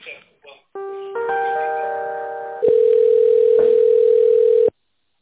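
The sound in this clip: Telephone tones sound while a call is being transferred: a steady electronic chord of several pitches, then a single loud, continuous beep that cuts off abruptly. A brief voice fragment comes at the start.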